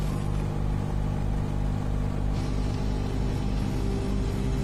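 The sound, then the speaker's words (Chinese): Steady low engine drone of a speedboat carrying passengers across a lake, a continuous rumbling hum with no breaks and no voices. “那我是坐这个快艇，你把我载过去。 好嘞好嘞。 好嘞。好，那我上船。哎呀，这船还挺晃。”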